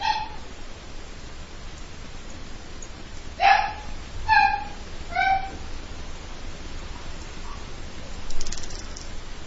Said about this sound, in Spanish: déjame ir a plantar a mi perra porque ya se alocó, espérame así. Es otra intolerante esa perra.